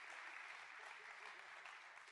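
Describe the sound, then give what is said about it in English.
Round of applause from an audience at a church service, a faint, even patter of many hands clapping that holds steady from start to finish. “All right, give Ty a big round of applause.”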